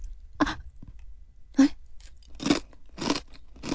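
Crunching on an avocado-and-cheese flavored snack: a few sharp, dry bites and chews in uneven rhythm, fairly loud, with no talking.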